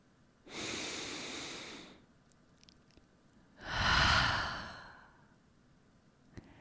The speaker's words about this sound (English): That was my first deep breath of the day.